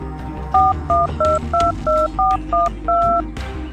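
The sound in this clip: A telephone number is dialed in eight crisp touch-tone beeps. The two-tone chirps fall in a brisk, fairly even rhythm, each a short steady pulse, over a low background hum.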